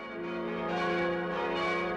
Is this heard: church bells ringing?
yes